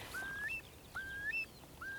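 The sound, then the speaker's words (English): Plaintive, doleful whistles of a wild bird: three clear calls, each a long upward-gliding whistle ending in a brief higher note, the last one cut off, heard alone over faint background hiss. “And there's seven whistling birds. Here he comes. Gosh, he's so close. Oh, here he is.”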